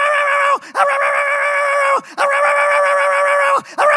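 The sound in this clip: A human voice imitates a dog whining for food while a meal is prepared. It gives a few long, loud, steady high whines, each sliding down in pitch at the end before a short break.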